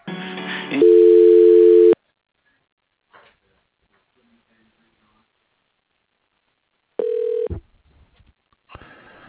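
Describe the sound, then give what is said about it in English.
Telephone ringback tone sounds as a call is transferred to an office extension: a loud steady ring burst, long silence, then a shorter ring, with brief hissy line noise at the start and end. “For Lisa Drew, please hold on while I try that extension.”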